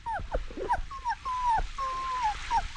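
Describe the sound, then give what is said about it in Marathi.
A wet, shivering puppy whimpers in a string of thin, high whines. Most are short, and two are longer and drawn out, with soft low rustling between them. “मावशी कुत्र्याचं पिल्लू.”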